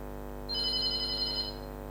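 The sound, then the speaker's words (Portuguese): Telephone ringing with an incoming call to a studio: one bright, high electronic ring over a steady low hum, with no voices. “Vamos aqui atender mais esta chamada.”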